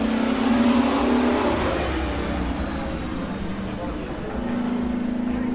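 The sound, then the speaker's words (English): A 1955 W196 race car driven by Sir Stirling roars with a loud, steady engine drone and a sustained low tone that holds throughout, dipping slightly in the middle and then firming up again. “That was the 1955 W196, and it was Sir Stirling driving it.”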